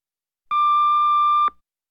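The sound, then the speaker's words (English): An answering machine beep: one clean, steady electronic tone lasting about a second, loud and alone, starting and stopping abruptly. “Please leave your message after the beep and I'll get back to you.”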